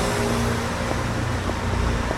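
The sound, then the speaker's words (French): Steady roar of traffic on a boulevard where cars, trucks and motorbikes speed past; a continuous, even rumble with no distinct single pass-by and no voices. “Là, je marche sur le boulevard. Il y a les voitures qui passent à toute vitesse à côté de moi. Des camions, des voitures vite teintées, des motos.”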